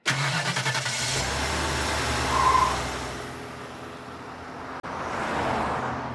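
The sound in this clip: A car driving on a road: a loud, steady engine hum with road rumble running throughout, briefly cutting out for a moment near the end, with no voices.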